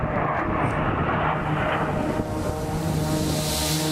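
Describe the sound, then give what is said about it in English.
A jet aircraft engaging its afterburners on the first race mile, a loud, unbroken roar with rushing wind noise throughout. “Race mile one, going into afterburners.”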